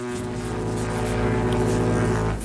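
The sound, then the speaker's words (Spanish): A boat motor drones steadily for a couple of seconds, a low humming engine tone with strong harmonics and no voices. “Eso es que contraté un servicio. ¿De barco? De barco que nos trae el pulpo fresco, tío.”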